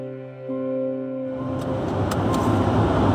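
A car is out on a drive. A low engine drone with steady tonal hum gives way to a broad, louder rush of road and wind noise that holds to the end.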